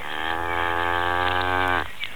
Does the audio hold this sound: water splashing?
no